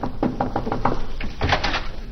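Knocking on a cottage door, a quick run of several sharp raps, followed by a heavier, fuller clatter as the door is answered and opened.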